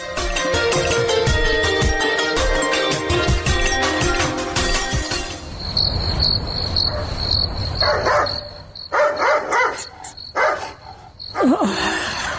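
A dog barking at night against dense, shrill cricket chirping. The insects fill the first half, then a few sharp barks break out in the second half over the continuing night ambience.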